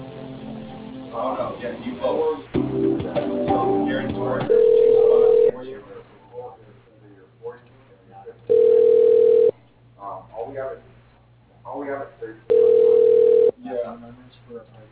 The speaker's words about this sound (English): Okay, so I can transfer you over to his voicemail